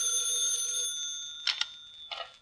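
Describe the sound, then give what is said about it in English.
A telephone bell rings with a steady metallic tone for about a second, then gives two short, sharp bursts of ringing. No voices are heard. “I was about to buy a file and bake a cake when the phone rang.”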